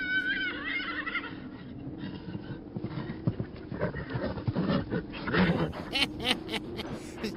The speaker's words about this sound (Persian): در دفاع از حسین علیه السلام سوار بر اسب می شود